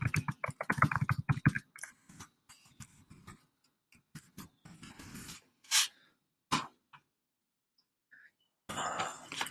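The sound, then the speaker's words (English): Typing on a computer keyboard while entering a web search: a quick flurry of keystrokes at first, then scattered, irregular clicks separated by pauses, ending in a short burst of soft noise, with no talking. “So when you type it in on Google”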